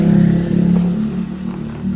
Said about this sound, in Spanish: Puta motocicleta.